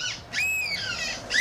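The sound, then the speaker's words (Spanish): Human voices imitate seagull calls: a few shrill, squealing cries with arching, gull-like pitch glides, moderately loud and separated by brief pauses. “tenemos los audios de algunas gaviotas. Esos son humanos imitando a gaviotas.”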